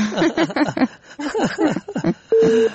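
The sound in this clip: A busy tone follows a dropped phone call. A voice is heard first, then a single steady electronic beep at the end.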